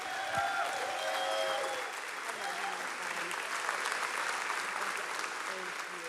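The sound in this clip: A church audience stands and applauds to welcome a pastor. The clapping is dense and sustained throughout, with voices heard over it near the start.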